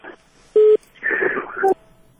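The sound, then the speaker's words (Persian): A short, loud, steady tone cuts in on a telephone line as a caller's call to a radio call-in show drops. Muffled phone-line voices sound before and after it. “تلفن قطع شد. تماسشون قطع شد”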